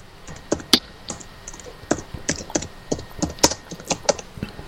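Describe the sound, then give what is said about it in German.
Rapid typing on a computer keyboard: many crisp, irregular key clicks and taps in uneven bursts, some louder strokes standing out, with no voices. “Da tippen wir schon wieder, ne?”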